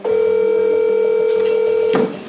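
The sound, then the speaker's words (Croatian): A steady ringback tone of a phone call to a smuggler holds one even pitch for about two seconds, then cuts off abruptly. “Jedan od njih nam je podijelio svoj broj, pa smo odlučili da ga pozovemo, nakon što nam na poruke nije odgovarao.”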